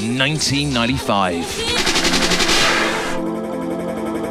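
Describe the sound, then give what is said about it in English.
A gunshot sound effect in a DJ music mix, heard as a rapid, rattling burst of shots lasting over a second. Tonal music-like sounds come before and after it. “Liquid means rewind, a gunshot means forward.”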